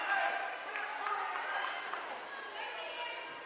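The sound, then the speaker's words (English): Basketball dribbling during a fourth-quarter game involving Pike Central, faint repeated bounces of the ball on the court under crowd murmur and talk. “And now we're going to get a double dribble and on Pike Central.”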